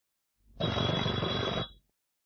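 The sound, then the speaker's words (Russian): A telephone bell rings in a single sustained burst of about a second, a bright rattling jangle heard alone, fairly quiet, starting and stopping abruptly. “Скорее к телефону. Город Наговица. Будьте любезны, соедините с номером 54.”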